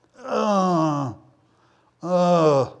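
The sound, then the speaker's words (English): Two drawn-out vocal groans, a person imitating the sound of struggling to get up in the morning. Each is a strained, voiced moan of about a second, separated by a short pause. “You get older, you groan even more. You go to get up in the morning,”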